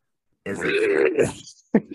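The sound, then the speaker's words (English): A voice performs an 'angry turkey' vocal technique, a loose polyphonic growl made at the back of the tongue, close to clearing the throat. It sounds as one rough, gritty growl lasting about a second, then a short, sharp second burst. “A loose polyphonic on the back of your tongue. It's actually more akin to clearing your throat than.”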